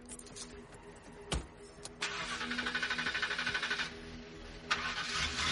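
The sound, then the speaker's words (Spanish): Car engine starting in a parking garage: a sharp click, then a rhythmic starter cranking that catches into a steady running engine, with another brief knock near the end; fairly quiet overall. “En el aparcamiento. Sube a su coche.”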